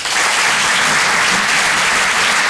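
An audience at a comedy club applauds a comedian coming on stage, dense and steady clapping that holds at full strength throughout.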